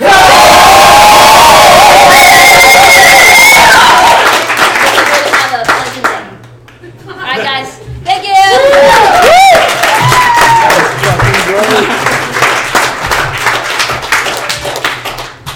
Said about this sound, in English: And this is the sound of 40 people in Chicago who agree with me.